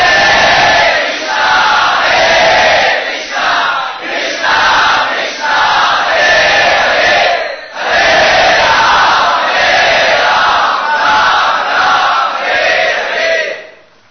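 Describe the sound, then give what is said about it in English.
A crowd loudly chants holy names in Sankirtan at a Radha-Krishna festival celebration on February 14. Massed voices repeat rhythmic phrases with brief dips between lines, sustained and loud throughout. “And of course, it was celebrated as we celebrate every festival, by the loud chanting of the holy names in Sankirtan.”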